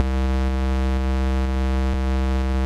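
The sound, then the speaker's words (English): Default Native Instruments Massive synth patch holding a single sustained C note: a steady, loud, buzzy tone rich in harmonics that stays unchanged for the whole bar, with no other sounds. “I've got a MIDI clip in live here with a sustained note of C and lasting a bar. So when this triggers the default instance of Massive, it sounds like this.”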